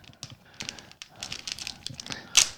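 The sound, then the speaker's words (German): A package is torn open at its tear notch: faint, crinkly rips and rustles come in short bursts, ending with one sharper, louder tear. “Oh, es reißt komisch auf. Ich habe es schon mal vermasselt hier. Eine Hälfte abgerissen und nach oben weggebrochen.”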